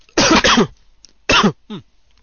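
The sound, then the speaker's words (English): Coughing from a tickly throat, aimed straight into the microphone: two harsh, raspy bursts with short, fainter coughs after each, loud and close with nothing else heard. “this is a tickly throat, which results in me coughing straight into the mic. Sorry about that.”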